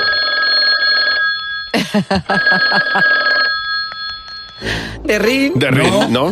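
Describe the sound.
Telephone ringing in a horror film: steady, buzzy ringing bursts alternate with film voices talking between and after them.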